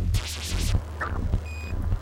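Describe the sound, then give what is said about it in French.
Radio beeping from the Sputnik 1 satellite's transmitter: repeated electronic beeps over a constant low rumble and hiss, with no talk. “Dans les steppes du Kazakhstan près de Baïkonour, en cette nuit calme d'octobre, le bip-bip caractéristique de l'émetteur radio du petit satellite répond.”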